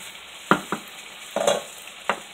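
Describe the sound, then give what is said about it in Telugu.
Masala sizzles in a hot pan as water mixed with ground ginger-garlic paste is poured in, with a few sharp utensil knocks and a short hissing burst, fairly quiet overall and without talk. “So almost కొంచెం మగ్గనిచ్చాం కదా ఇప్పుడు water add చేసుకుందాము”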